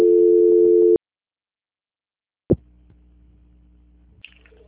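Steady telephone line tone during a call transfer, held for about a second and then cut off. Silence follows, then a sharp click and a faint, constant low hum on the line.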